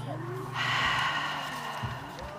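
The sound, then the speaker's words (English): A single deep breath drawn in during a group breathing exercise at a family day event, a soft, airy rush lasting about a second and a half over a low steady hum. “We'll take three deep breaths when we come. One,”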